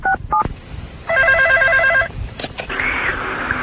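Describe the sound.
A telephone number being dialed: two short dual-tone keypad beeps, then a steady warbling electronic ring, followed by a few clicks and a soft hiss.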